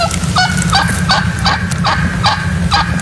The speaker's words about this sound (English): I got some wild turkey. Let's hear wild turkey.